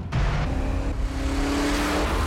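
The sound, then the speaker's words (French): A Hyundai Genesis AirSpec sports car with 429 horsepower accelerates. Its engine gives a loud, steady roar with a low, sustained hum, and no voices are heard. “Propulsée de 0 à 100 km/h en moins de temps qu'une Porsche Panamera S. La Genesis AirSpec de 429 chevaux. De Hyundai.”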